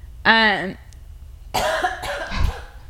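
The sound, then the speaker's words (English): Harsh coughing from someone with nuts from a peanut candy bar caught in the throat: a short voiced sound, a pause, then a rough cluster of several throaty coughs. “Sorry, I ate a payday and I had some nuts caught in my throat.”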